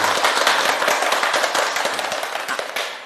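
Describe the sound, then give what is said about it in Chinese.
An audience of students applauds to welcome a guest professor, a dense burst of many hands clapping that gradually thins and fades. “我们掌声欢迎”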